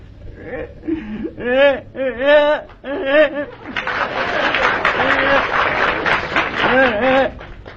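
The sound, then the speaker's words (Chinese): A child crying as it comes in from outside: loud, wavering wails and sobs in a series of bursts. “孩子从外头哭着进来了。”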